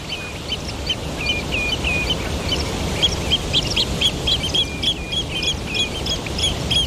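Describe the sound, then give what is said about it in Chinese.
Songbird calls from two parent birds above their nest as the male brings food back: many short, high, repeated chirps over a steady background hiss. “两只亲鸟会在巢穴上空完成食物交接，这次轮到雄性亲鸟将食物送回巢中。”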